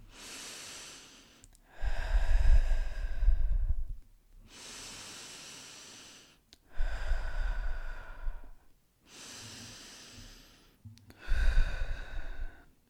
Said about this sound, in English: I just want to take 3 deep breaths with you, just to get you focused, just to get you in the zone. Just deep breaths through the nose and out through the mouth.